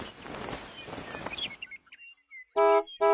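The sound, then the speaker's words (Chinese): A winged magic school bus in a children's story sounds its horn: two loud, bright honks close together at the end. Before them, a rustling noise fades out, along with a few faint chirps. “滴滴滴，一辆长着翅膀的校车从天上飞了下来。这是魔法学校的校车。”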